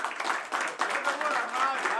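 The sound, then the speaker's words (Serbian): Applause from a tavern audience for the house orchestra: a dense, steady patter of many hands clapping that runs through the whole clip beneath a man's voice. “Jedan veliki aplauz, molim vas.”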